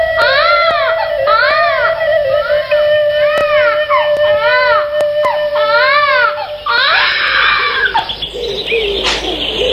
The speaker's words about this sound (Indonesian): Bayinya pun lahir dengan selamat.